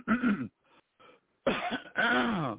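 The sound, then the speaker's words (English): Throat clearing by a man: several harsh, raspy voiced bursts of varying length, separated by short gaps, with no other sound around them. “Whoops, excuse me, I kind of got cleared my throat a little. And then sometimes when we're getting ready to tell a bullshit story, we clear our throat.”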